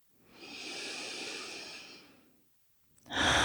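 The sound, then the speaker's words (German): Deep breathing through an open mouth during a guided relaxation: one long, airy breath swells and fades over about two seconds, then after a pause a louder breath begins. “Dann nimm hier ein paar tiefe Atemzüge ein und aus. Geh mal durch den geöffneten Mund.”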